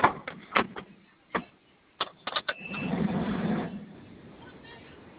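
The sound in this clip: A car door is unlocked and opened: a series of sharp mechanical clicks and clunks, followed by a rough, steady whirring rumble for about a second that then fades away.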